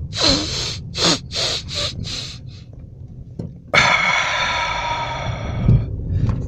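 Deep breathing: a run of several short, sharp inhalations, a brief quiet, then one long, steady exhale to the end.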